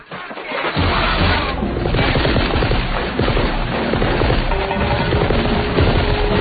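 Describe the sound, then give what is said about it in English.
Heavy gunfire in a film's opening action sequence shot on a studio set: dense, continuous rapid bursts like machine-gun fire, loud and unbroken from start to end. “God knows how many rounds of gunfire happened to the ridiculous opening sequence.”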